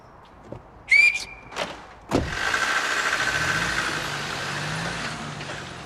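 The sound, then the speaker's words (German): A woman gives one short, high, clear whistle. Soon after, a vehicle engine starts and settles into a steady running rumble that continues to the end. “Ich mag pfeifende Frauen.”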